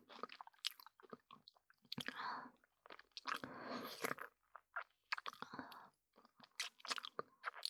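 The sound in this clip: Crunching and chewing of an apple: many irregular, fairly quiet bites and crisp chews with short pauses between them.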